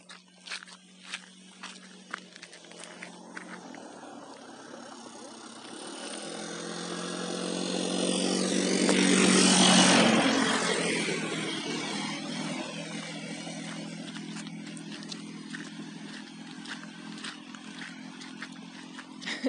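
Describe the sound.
A quad bike carrying three dogs in a box drives past. Its engine noise swells steadily to a peak midway, then slowly fades, with scattered sharp clicks throughout.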